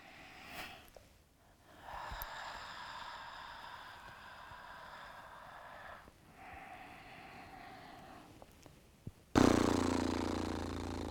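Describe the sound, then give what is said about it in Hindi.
Fluttering lips buzz through long, steady exhales during a yoga breathing exercise in a morning flow, a rough breathy drone that pauses briefly midway, then a louder, abrupt sound takes over at the end. “सांस अंदर, हाथ ऊपर, और अपने होठों को फड़फड़ाते हुए एक बार और करेंगे। गहरी सांस अंदर,”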